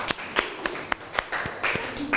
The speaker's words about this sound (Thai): ปรบมือให้เพื่อนหน่อย